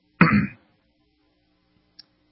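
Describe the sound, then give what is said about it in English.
A single throat clearing makes a short, loud, rasping burst lasting under half a second. Near silence follows, broken near the end by one faint tick. “I've got the busy throat, so if you hear me clearing it a lot today, my apologies.”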